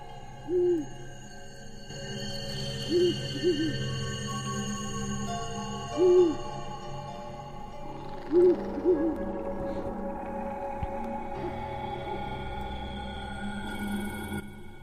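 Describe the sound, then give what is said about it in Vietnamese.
Owl hooting from a nearby tree branch: several short, low hoots, some in quick pairs, spaced out over a steady sustained tonal background. “Ở trên cành cây gần đó, tiếng con chim cú lại vang lên, như là dự báo sẽ có điểm chẳng lành.”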